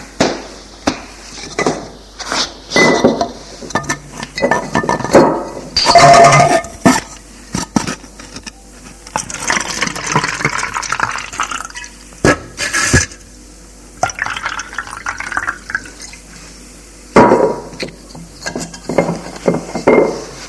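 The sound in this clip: Glasses are set down on a coffee table and filled with a drink, giving clinks, knocks and pouring sounds spread irregularly over about twenty seconds, with no talk.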